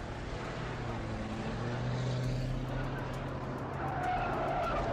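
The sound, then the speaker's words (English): Fifteen vehicles, cars, SUVs and motorcycles, tear down a highway at night, making a steady, droning engine roar with low humming tones and hints of tire noise. The sound continues throughout and grows somewhat brighter toward the end. “Fifteen vehicles, cars, SUVs, and motorcycles emerged from the darkness as they tore down the highway and parked themselves in a neat row facing the compound.”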